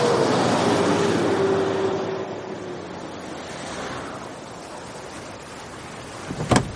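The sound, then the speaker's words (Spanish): A car drives off at speed, its engine and road roar strongest at first and then fading over a few seconds with a falling tone, leaving a steady low hiss that ends with a brief sharp knock. “Macris vuelve a montarse en el coche y se marcha a toda prisa.”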